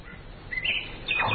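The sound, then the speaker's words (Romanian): A bird singing gives a few short, bright whistled phrases over a soft hiss. It is faint and heard alone, with no voices. “O pasăre. Cântă undeva pe aproape.”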